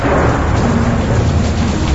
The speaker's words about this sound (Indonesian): Tapi hujan turun sangat deras.